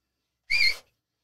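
A loud human whistle of the kind used to call sheep: one sharp, steady high-pitched blast lasting about a third of a second, alone with no voices.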